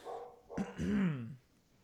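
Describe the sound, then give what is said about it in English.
A dog barks once in the background, the bark stretching into a short, wavering whine; quiet and alone. “Dog's making a guest appearance in the background there. I don't know if you can hear that, but my dogs are barking.”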